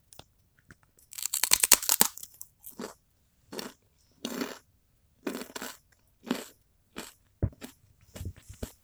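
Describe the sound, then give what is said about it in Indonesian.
Crunching and chewing of kerupuk gendar rice crackers: one long burst of loud, crisp crunches, then many shorter crunchy chews spaced roughly every second, with silence between them. “ini yang kita makan nih kerupuk gendar”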